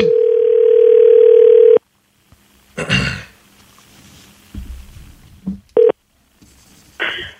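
A telephone's steady dial tone plays for nearly two seconds, then quiet handling noises come as a number is dialed, followed by short, separate tone bursts as the line begins to ring.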